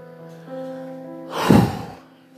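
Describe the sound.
Heavy breathing as a person catches their breath: one loud, rushing breathy exhale that swells out of a quiet background with a faint steady hum, then fades.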